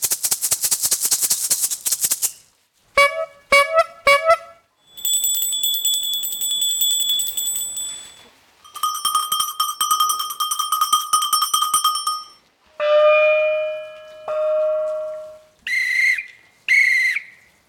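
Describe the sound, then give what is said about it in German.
A string of animal recall signals from a zoo savanna, including a rattle, an old bicycle horn and a small bell: a noisy rattling burst, short honks, sustained whistle-like tones and ringing bell tones, each sounding alone with short gaps between. “Also für den Giraffe haben wir die Rassle. Für Nashörner haben wir eine alte Velohupe. Für Zebras haben wir ein Glöckli,”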